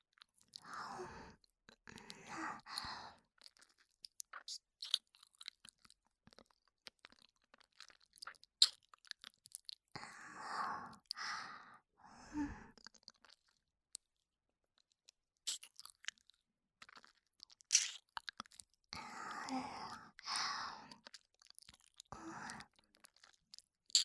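ASMR ear-eating mouth sounds on the left ear: soft, wet chewing, crunching and nibbling come in several bursts, separated by stretches of near silence.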